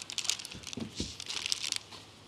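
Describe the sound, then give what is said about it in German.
Soft crinkling and rustling as dough is rolled loosely in a kitchen tea towel, with a few muffled thumps among irregular fabric scrapes and no voices. “Und jetzt rollen wir den locker ein. Und da ist der zweite Trick von unserem Geschirrtuch. Nutzen wir das Handtuch und rollen den wunderschön ein.”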